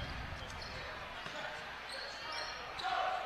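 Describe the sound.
Basketball dribbling on a court during a women's game between the Lady Bombers and Valonia, a few dull bounces under a play-by-play commentator's voice.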